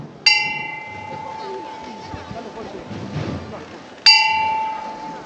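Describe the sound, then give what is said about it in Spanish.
Two clear strikes of the bell on a Holy Week procession float in Jaén as the float is lifted. Each ringing tone fades slowly, the strikes come about four seconds apart, and a steady crowd murmur runs underneath. “Campana del trono del Cristo de la Buena Muerte que levanta”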